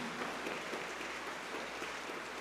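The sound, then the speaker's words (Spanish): Applause in church, a dense continuous patter of many clapping hands at a fairly soft, even level with no voices over it. “Le brindamos un fuerte aplauso al Sagrado Corazón de Jesús”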